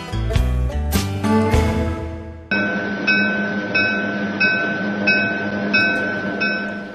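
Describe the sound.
Train running on rails, with a regular, rhythmic clatter of wheels over track joints and a steady high whine beneath, loud and unbroken, coming in after a few seconds of tonal music.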